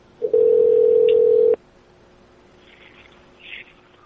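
A telephone dial tone after a call is hung up: a single steady, loud mid-pitched hum lasting just over a second, cut off abruptly and followed by faint background noise.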